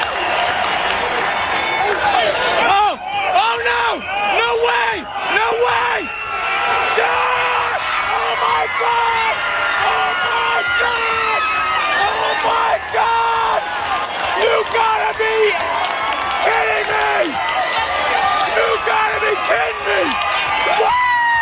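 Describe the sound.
A father yells and whoops with excitement at Dodger Stadium as Davis Schneider hits a leadoff home run for the Blue Jays against the Dodgers in a World Series game. His loud, repeated shouts rise over a steady crowd murmur.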